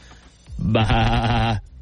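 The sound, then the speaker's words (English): A single sheep bleat, a wavering nasal cry about a second long that swells in, holds with a trembling pitch and then cuts off, standing alone against quiet background. “since Homer is a sheep”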